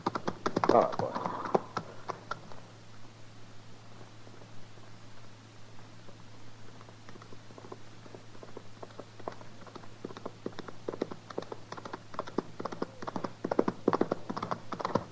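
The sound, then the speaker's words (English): Hooves of a cowboy's horse riding hard: many quick, irregular clattering hoofbeats, faint at first and growing denser and louder toward the end. “Cowboy. Yeah. He's riding pretty hard. Ride like man afraid. Yeah, let's wait here for him.”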